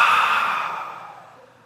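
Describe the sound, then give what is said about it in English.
A deep breath let out through the mouth: one soft, breathy whoosh that starts fairly strong and fades steadily over under two seconds, with no voice. “Take a deep breath with me. Do not laugh, but just let the breath out through your mouth.”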